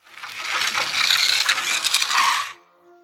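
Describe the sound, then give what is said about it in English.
Mechanical clatter as a tower crane mechanism is fixed: a dense, continuous rattling and ratcheting with scraping that runs for about two and a half seconds, then stops, leaving a faint low hum. “Now, let's fix the tower crane so the platform lowers and raises when the buttons are pressed.”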